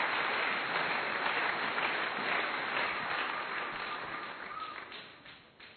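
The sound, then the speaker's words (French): Congregation applause during a Sunday church service, a dense, steady wash of clapping with no talk over it that slowly thins and fades toward the end. “On acclame David. Tushangilie Daudi.”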